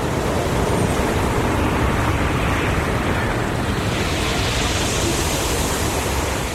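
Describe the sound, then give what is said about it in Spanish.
Waves washing pebbles together on a natural Mediterranean beach, a dense, continuous rushing wash with a constant hiss that stays loud and even throughout, with no distinct breaks. “Cada vez que el agua entra y sale de la orilla, los cantos rodados chocan entre sí, formando una melodía imposible de confundir. Es el sonido de una playa natural”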